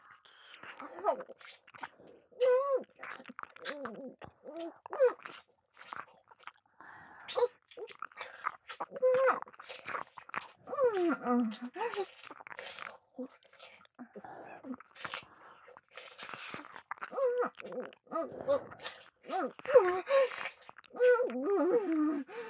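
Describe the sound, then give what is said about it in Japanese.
Wet ear-licking mouth sounds in an ASMR roleplay, a steady stream of soft smacks and slurps alongside a whispering voice throughout. “じゃあ次は私が耳を舐めよっかな。 いただきますね、先輩。”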